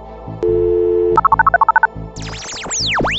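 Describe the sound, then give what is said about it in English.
Telephone dialing: a steady dial tone gives way to a rapid run of touch-tone keypresses. Loud sweeping, warbling electronic tones rise and fall after the dialing. “if you're ready there, dial that number for us.”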